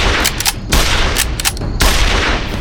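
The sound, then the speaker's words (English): Rapid rifle shots ring out from a lever-action Winchester fired toward the sky, a few sharp cracks in quick succession over a dense, noisy background. “He pointed the barrel at the sky and cranked off three shots as fast as he could work the lever.”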